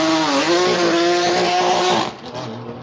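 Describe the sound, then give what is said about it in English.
A Porsche 912 race car at a sports car race in Long Beach roars loudly, its engine holding a high, steady harmonic howl with a brief dip in pitch early on before the sound drops off sharply after about two seconds. “912 Porsche deafening us.”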